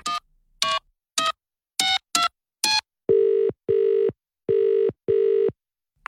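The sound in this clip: Six short electronic keypad beeps as a telephone number is dialed, followed by four longer, evenly spaced ringing tones of a steady mid pitch as the call goes through.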